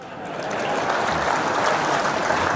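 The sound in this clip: Audience clapping at a religious gathering, dense applause that fades in quickly and then holds at a steady, fairly loud level for a couple of seconds.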